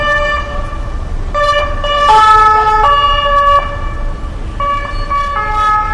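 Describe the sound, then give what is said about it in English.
Siren of a gas company emergency vehicle wails with loud, steady tones that step back and forth between pitches, sounding continuously for the whole stretch. “That's from the gas company, emergency.”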